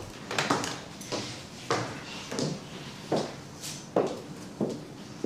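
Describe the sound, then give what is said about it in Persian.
Footsteps climbing the stairs of a company building: a quiet, steady series of evenly spaced treads, each a soft thud, continuing throughout with no talk. “از پله های شرکت مجلل میره بالا.”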